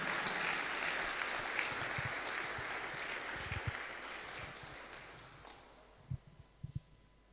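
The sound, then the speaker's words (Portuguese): Applause from an audience at a church sermon: dense, steady clapping that gradually fades, with a few separate knocks near the end. “Put your hands together for Jesus. Palmas para Jesus.”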